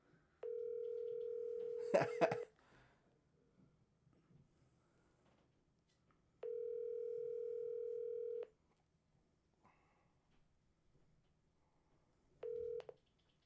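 Telephone tone while calling a phone: three steady, even electronic tone bursts separated by silence, the first two about two seconds long and the last cut short, with a brief burst of clattering noise during the first.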